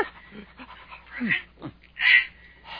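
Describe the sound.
A dog whimpering, Snowy from Tintin: a few short whines and yips with falling pitch, then a louder, higher cry near the end, all against a quiet background.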